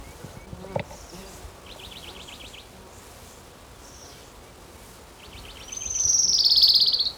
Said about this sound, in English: his Orange Crown Warbler number 2.